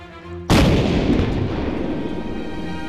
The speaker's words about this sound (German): Und tatsächlich, die Kanone der Tankadere wurde auf dem nach Yokohama auslaufenden Dampfer gehört.